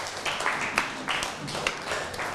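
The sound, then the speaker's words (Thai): Applause for a friend: a dense, steady patter of many hands clapping together for a couple of seconds, with no clear break. “ปรบมือให้เพื่อน”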